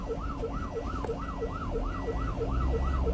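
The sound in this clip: Ambulance siren wailing in rapid, regular up-and-down cycles on a busy road, loud and continuous, with a low engine and road rumble underneath.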